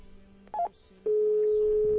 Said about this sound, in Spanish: Ahí estamos marcando.